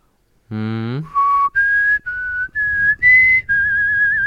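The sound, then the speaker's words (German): Whistled TV series theme tune: after a short hummed tone, six clear, high, sustained whistled notes follow one after another at a steady pace, loud and alone. “Das ist Akte X, das genau. Ist Akte X, richtig.”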